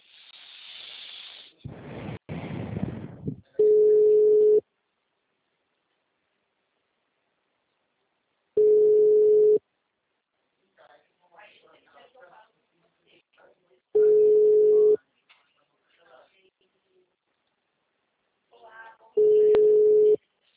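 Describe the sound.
Telephone ringback tones play as a bank assistant places an outgoing call. Four steady one-second beeps repeat at regular intervals, with a noisy burst at the start and faint scattered sounds between the tones.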